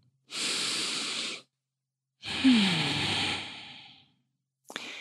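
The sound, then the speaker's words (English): A deep breath taken slowly: two long, airy breathing sounds, the second longer and fading with a faint voiced sigh, with quiet between them. “But for right now, just take a nice deep breath.”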